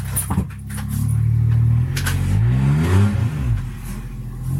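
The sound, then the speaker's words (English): A car engine revs outside by a front lawn. A low drone climbs in a couple of rising sweeps, then eases off, with a few faint clinks near the start. “I wasn't exactly expecting a NASCAR race outside my front lawn.”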